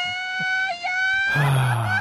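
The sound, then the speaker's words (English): Mariachi yell sound effect: a high, sustained voiced cry that holds steady, then bursts into a louder, rougher and wilder shout that wavers until it stops. “Can I get a mariachi yell? It might help me. Oh, this one? It'll cure my broken heart.”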